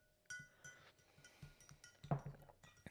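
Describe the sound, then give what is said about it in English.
Faint, irregular clinks and taps of a cocktail being stirred in a glass, repeating many times over a soft background hiss. “If you can. If you can't hear that through the microphone, I'm going to stir.”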